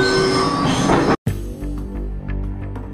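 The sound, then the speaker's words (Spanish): An Athens metro line 1 train runs loudly, its wheels squealing in steady high tones over a broad roar. After a brief gap, a lower rumble continues with faint rhythmic clicks. No announcement voice is heard. “La megafonía de la línea 1 del metro de la ciudad de Atenas sirve de introducción a la última lectura de este paseo literario.”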